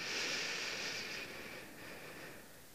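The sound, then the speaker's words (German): A deep breath drawn in during a guided breathing exercise, a soft, airy hiss lasting nearly three seconds that slowly tapers off, with no talk. “Und wieder aus. Und gleich noch einmal, mal so richtig tief ein.”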